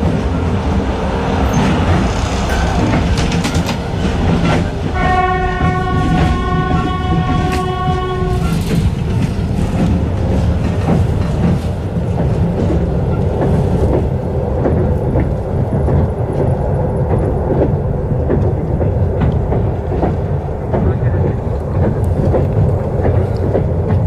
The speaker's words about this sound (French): Le train roule dans la République des Komis et nous allons vers Vorkuta.